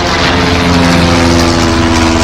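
A small flying machine's motor buzzes in a steady, loud, even drone with a strong low hum, holding one pitch throughout without a break.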